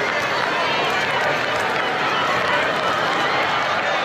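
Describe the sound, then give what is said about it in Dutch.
Live ambience from St. Peter's Square in the Vatican, a continuous dense wash of crowd noise that stays steady and loud with no distinct events. “Zoals u kan horen, zijn we helemaal live verbonden met het Sint-Pietersplein.”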